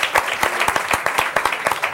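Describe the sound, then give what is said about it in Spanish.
Applause: a brisk, steady run of claps with a fairly even rhythm, continuing without a break for about two seconds. “Un aplauso por esta noticia.”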